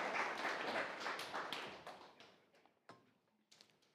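Applause from a church audience during a sermon: a dense, fairly faint burst of clapping that thins out after about two seconds into a few scattered, separate claps.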